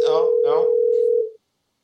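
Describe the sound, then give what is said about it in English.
Steady telephone line tone on an outgoing call, a single unbroken mid-pitched hum lasting a little over a second before cutting off, with a voice talking over its first half. “And the phone's ringing right now.”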